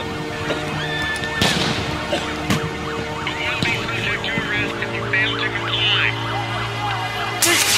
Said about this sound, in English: Man, quit shooting at me! Quit shooting at me! You see, they shooting at us!